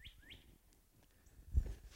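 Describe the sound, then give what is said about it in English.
Birds chirp outdoors on a sloping hill: two quick, faint, rising chirps open the moment, followed by a soft, low rumble. “the birds are chirping and telling us that everything is wonderful”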